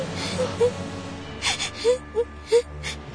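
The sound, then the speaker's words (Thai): A child cries after a fright, giving several short, wavering, whimpering sobs that start softly and grow more distinct toward the end, alone with no talk. “เด็กนี่เริ่มร้องไห้แสดงว่าเริ่มหายตกใจแล้ว”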